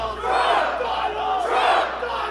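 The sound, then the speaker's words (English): More than 1,000 Trump supporters lined up outside a rally in Cleveland, Ohio, shouting together as a crowd in two loud, rising swells of massed voices. “More than 1,000 people were lined up outside a Trump rally in Cleveland, Ohio on Saturday, buzzing about the events of the night before in Chicago, and more than ready to show their support for Donald Trump.”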